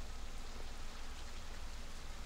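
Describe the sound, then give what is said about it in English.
Steady rain falls as a faint, continuous hiss with no breaks and no voices. “it's raining. We're stopping for a bit.”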